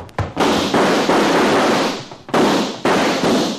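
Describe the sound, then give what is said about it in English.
Gunshots in a radio drama: a handful of sharp bangs, each followed by a long, noisy roar, come in two clusters separated by a brief lull. “Chad, look out. They both got guns. They both better use them.”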